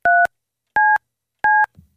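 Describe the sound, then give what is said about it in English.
A telephone number being dialed: three evenly spaced dual-tone keypad beeps, loud and clean, followed by a faint low click. “This better be good. I don't even know who you're calling.”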